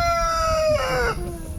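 A rooster crowing sound effect gives one drawn-out crow whose pitch slides gradually downward, then drops near the end, over a steady background noise.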